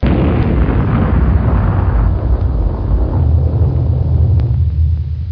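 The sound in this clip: Bomb explosion heard as a loud, heavy, sustained low rumbling roar lasting several seconds, deep and dense throughout, its upper edge thinning slightly toward the end.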